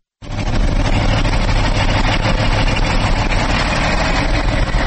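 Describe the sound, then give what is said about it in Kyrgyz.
KAMAZ trucks idle while queuing at the Kara-Keche coal mine in Kyrgyzstan, a loud, unbroken low engine rumble that starts abruptly and holds steady throughout. “Каракечеде көмүр алганы келген КАМАЗдар ар кандай себептерден улам 10-20 күндөп, айрым учурда бир айга чейин туруп калат.”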